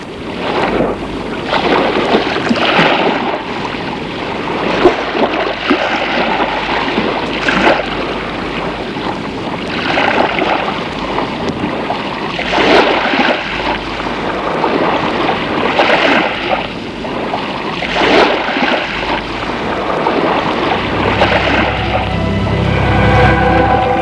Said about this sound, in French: On n'entend que le bruit de la mer.